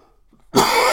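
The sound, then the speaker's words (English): A single loud cough from a man bursts out abruptly after near silence, then trails off as a rough, breathy rasp. “Excuse me, folks. Little cough there.”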